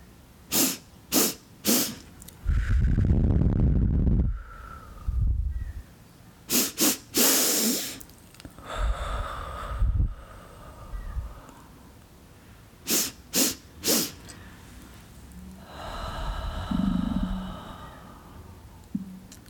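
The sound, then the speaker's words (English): Quick, sharp sniffs through the nose come in sets of three, each set followed by a long, breathy exhale out the mouth; the pattern repeats about three times with airy hiss and short pauses between rounds. “We're going to do 3 short inhales in our nose and just a long exhale out our mouth.”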